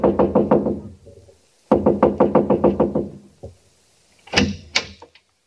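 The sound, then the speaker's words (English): Knuckles rap on a house door in several bursts of rapid, firm knocks separated by short pauses, followed by a lone tap and then a few louder, heavier blows. “So I just kept knocking and knocking.”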